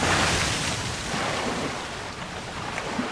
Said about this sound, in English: A rising surge of water, driven onshore by the wind, engulfs the coastline.